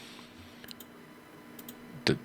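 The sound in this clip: A computer mouse clicks through photos with a few faint, soft clicks spread apart, then a louder, sharper click-like noise just before the end.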